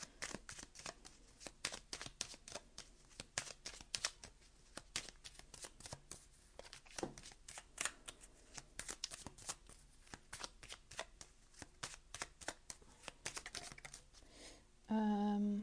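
Tarot cards being shuffled and drawn, a dense run of quick papery riffles and snapping taps in an uneven rhythm, soft and close, with no voices.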